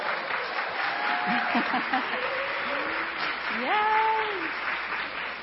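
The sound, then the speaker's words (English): An audience gives a guest a long burst of applause as she is welcomed to the stage. The steady clapping stays loud throughout, and voices speak over it. “wow, that's the biggest applause you've had all day”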